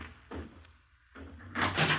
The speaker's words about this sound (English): Sir, there's somebody at the door.